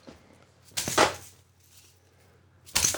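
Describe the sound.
A thin, short implement strikes a person's thigh twice. Each strike is a sharp, slapping impact, and a stretch of near silence separates the two.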